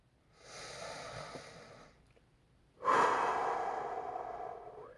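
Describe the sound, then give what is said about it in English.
A person who is sick takes a deep breath: two long, airy breaths separated by a short pause, the second noticeably louder and more rushing than the first, with no talking. “this will still be your weekly reminder to take a deep breath.”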